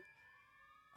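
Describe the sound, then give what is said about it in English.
A police siren sounds as a faint, steady electronic wail with a bright tone, running under a person speaking casually. “It's the sound of the police. Can they hear that? They can hear that.”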